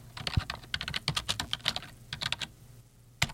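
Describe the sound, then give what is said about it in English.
Rapid typing on a computer keyboard as a celebrity's name is entered: a dense run of crisp, uneven key clicks, a short pause, then one final sharp keystroke on its own. “Okay, so when we type in Jimmy Carter, a number of things come up.”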